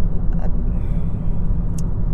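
From inside a moving car comes a low, steady rumble of the engine and road. A couple of faint, brief higher-pitched ticks sit on top of the drone.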